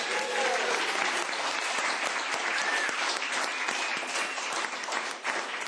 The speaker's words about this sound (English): there is a group of people in the room who are great supporters of WYEP. Give yourselves a hand.